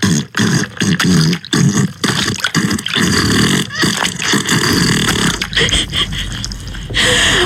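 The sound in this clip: A realistic fart sound effect: loud, low, rasping and sputtering noise that rumbles on for several seconds, broken by a few short gaps, with no voices.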